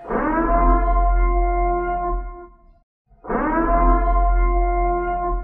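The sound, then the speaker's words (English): Purge siren sound effect: a loud civil-defense-style siren wail in two long sustained blasts separated by a brief silence, steady in pitch with a deep rumbling low end beneath. “That's right. It's the sound you hear when the purge starts.”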